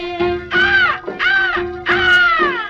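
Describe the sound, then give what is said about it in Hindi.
Three crow caws, harsh, arching and evenly spaced, each about half a second long, ring out loudly over a steady sustained tone. “देख तो हर साथी जोड़ी कौवे शोर मचाए, फिर कौवे शोर मचाए।”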